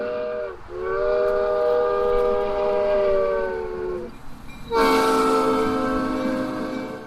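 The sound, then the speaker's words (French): A small two-car train circling a building at an Alice in Wonderland–themed café sounds its whistle in two long, steady tonal blasts, the second starting brighter and louder after a short pause. “Un train de deux wagons se tient prêt à emmener Jason au pays des merveilles, le long des voies qui entourent le bâtiment.”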